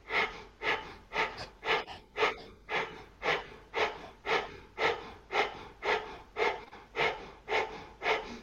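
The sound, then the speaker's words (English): Rapid rhythmic yoga breath of fire: many quick, forceful nasal exhalations at a steady pace of about two per second, soft and even, with no talking. “And actually, breath of fire is very quick. So when you do it at this rhythm.”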